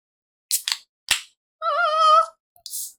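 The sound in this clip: A bottle of beer brewed near a pumpkin patch is cracked open: a couple of small clicks, then a sharp snap, followed later by a brief hiss.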